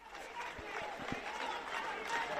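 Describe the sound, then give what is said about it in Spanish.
Supporters applaud Alberto Núñez Feijóo, leader of the Partido Popular, as he enters the chamber of the Spanish Congress. The clapping is faint and steady, with a few soft low thumps. “Feijóo ha sido recibido con aplausos por los suyos a su entrada al hemiciclo”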